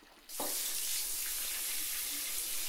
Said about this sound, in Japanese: お兄ちゃんにたっぷりのお湯をかけてあげるね。